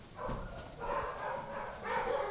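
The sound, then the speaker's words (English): Dogs barking in an animal shelter kennel: several overlapping barks and yelps rise and fall in a steady, busy chorus, with no clear gaps between them. “So this is the kennel we're entering. We have space to hold about 40 dogs.”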